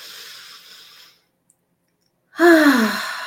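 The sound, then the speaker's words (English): A deep breath in and out during a guided relaxation: a soft, breathy exhale, a short silence, then a louder voiced sigh whose tone falls in pitch as it fades. “Deep breath in. Notice your body release the tension on the exhale. Inhale now.”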